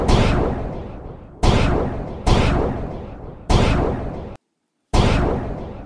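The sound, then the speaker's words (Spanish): Gunfire opens on a crowd gathered before the Bastille, an old fortress turned state prison. Five heavy shots crack one after another, each with a long, rumbling, fading tail, and a short silence falls before the last. “El intento de diálogo ha fracasado y se ha empezado a disparar sobre la multitud.”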